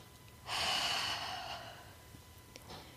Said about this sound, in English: Take a deep breath. Breathe out.